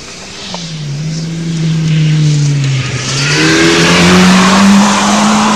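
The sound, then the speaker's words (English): A Ford race car engine roars loudly and steadily throughout, its pitch dipping briefly before climbing higher as the car accelerates. “That sounds like the Ford. That sounds like the Ford.”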